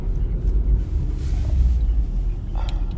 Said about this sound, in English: So, I'm in Jenny's car right now, going to pick her up from Chicago.